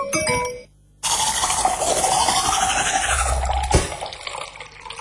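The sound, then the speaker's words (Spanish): Fizzy pouring and clinking of glass with ice as a Coca-Cola is opened and served in a soft-drink commercial. A short snippet of music and a brief pause come first, then a sustained bright fizz with clinks and gurgles. “Destapa una Coca-Cola, ponle comida en acción. Destapa una Coca-Cola, más fría que nunca.”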